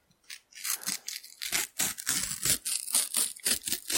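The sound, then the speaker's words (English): A sticker packet is torn open by hand, producing many rasping, papery rips in quick bursts that run on steadily with brief gaps, fairly loud against otherwise quiet surroundings. “That's a cracking tear. Right down the line.”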